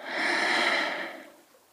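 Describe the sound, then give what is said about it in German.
A deep breath taken during a yoga relaxation, a long airy rush of breathing that swells quickly, holds, then slowly tapers off into quiet, heard alone without talk. “Atme mal tief durch die Nase ein und durch den geöffneten Mund wieder aus.”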